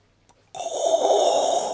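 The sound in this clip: A loud, long exhale from a person, a single steady breathy hiss that starts abruptly and lasts just over a second before cutting off.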